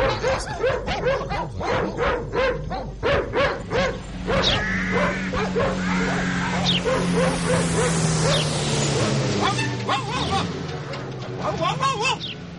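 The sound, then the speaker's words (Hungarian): Several dogs bark in a yard in a rapid run of sharp barks and yaps, with some whimpering between them, loud and continuous throughout. “Mit ugattok itt az udvarban?”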